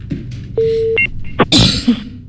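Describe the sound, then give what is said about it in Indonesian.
A WhatsApp voice call connecting: a steady mid-pitched tone holds for about half a second, then a short, higher electronic beep follows, and brief noisy rustling comes after. “Saya buka dulu WA call, bukan telepon phone callnya.”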